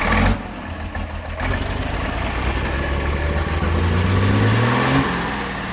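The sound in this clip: A car engine fires up while mechanics work on it at a desert bivouac. After an initial burst it runs with a rough mid-range drone, then revs up with a steadily rising pitch before easing back down near the end.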